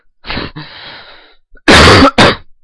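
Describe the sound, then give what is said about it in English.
A cough: a short, breathy throat-clearing burst with a soft fading tail, then after a brief pause two loud, harsh cough bursts in quick succession, alone without talk. “I have a nice cough at the end. Nice little cough. At the end.”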